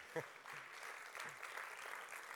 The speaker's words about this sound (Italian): E fateglielo un applauso, è veramente...